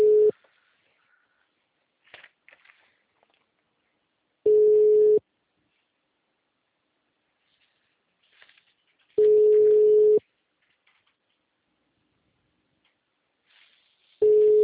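Ringing tone on an outgoing telephone call. Steady mid-pitched tone bursts of about a second repeat every four to five seconds, with faint scattered noises in the gaps.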